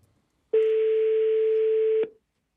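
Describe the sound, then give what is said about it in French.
Ringback tone of an unanswered telephone call: one steady, unbroken mid-pitched tone lasting about a second and a half, loud and alone, with a short silence before and after it. “Ça sonne dans le vide. Toujours pas de répondeur.”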